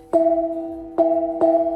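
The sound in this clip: A 30 cm handheld brass gong with a polished dome, struck three times. Each crisp hit rings into a warm, sustained tone with a gentle pulsing waver, the last two strikes coming closer together.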